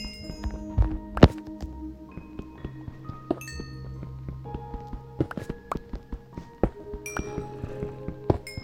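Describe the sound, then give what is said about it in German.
Pickaxe mining coal blocks in the Minecraft video game: many sharp, clicky digital hits and knocks at irregular intervals, with short ringing pings, one heavier knock early on, and no talk. “ich baue hier noch kurz Kohle ab.”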